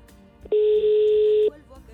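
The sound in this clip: A telephone tone heard right after a call drops: one loud, steady tone at a fixed pitch, holding for about a second before cutting off abruptly.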